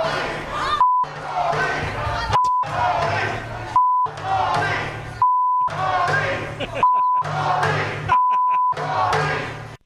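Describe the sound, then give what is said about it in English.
A crowd of protesters outside a city hall's front door yells the same chant over and over, each shout cut by a steady censoring beep. Six beeps recur at fairly regular intervals between loud bursts of yelling. “Here's a group of people yelling F Nuri. They're right outside City Hall, outside the front door.”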